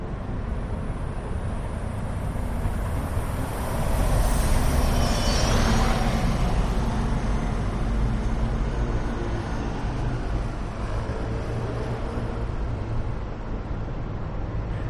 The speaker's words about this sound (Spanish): hoy me ha resultado extraño que el sonido de una de las principales calles comerciales de Madrid fuera este.